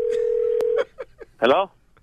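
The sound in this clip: A telephone call is being placed: a steady single-pitch tone holds for under a second and then cuts off, followed by a few soft clicks and a short burst of voice.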